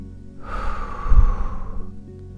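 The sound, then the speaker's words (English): A single long, breathy exhale during a meditation for footballers, lasting over a second above soft, low sustained tones. “And as we breathe out,”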